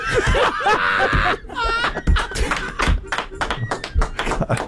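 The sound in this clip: Knocks on the left-hand corner of a table, sharp hollow taps that come in an uneven run amid laughter and people talking.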